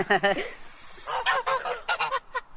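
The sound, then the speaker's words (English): Geese honking on a farm: many loud, nasal, harsh honks in irregular bursts, some overlapping, with a short lull in between before a rapid run of further calls. “These are the geese over there. It makes so much noise.”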